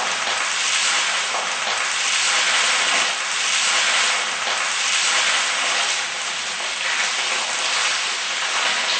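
Pork stir-fried in a pan gives a loud, continuous sizzling hiss with crackle throughout, steady in level and without talk.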